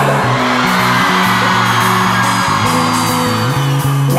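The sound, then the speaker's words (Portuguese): Women in a crowd at a live Brazilian pop-rock concert in Santos scream loudly and continuously, a dense high roar over steady music with a stepping bass line that runs the whole time. “toda mulher de Santos, eu quero ouvir o grito da mulher.”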